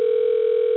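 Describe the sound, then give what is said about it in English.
A telephone tone sounds as one steady, unbroken mid-pitched hum for just under a second, at an even level throughout. “I don't know what that noise is. That, you know, it sounds like, you know, somebody's phone went off, but we're just going to kind of ignore it.”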